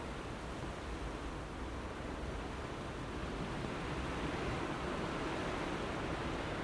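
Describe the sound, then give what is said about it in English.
Wind and rain outside make a steady, dense hiss with no distinct events. It is fairly faint and stays even throughout. “that wind's getting up again with the rain.”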